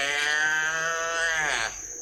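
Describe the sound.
A calf about to suckle gives one long, loud bawl with a rich harmonic tone. The call holds steady for nearly two seconds, then breaks off abruptly.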